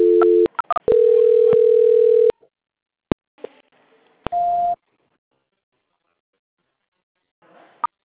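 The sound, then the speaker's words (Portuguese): Telephone line tones during a call transfer: a few short beeps, then a steady flat tone held for over a second, a sharp click, and another brief steady tone, with faint line noise between and no talk. “Só um instante na linha. Transferência.”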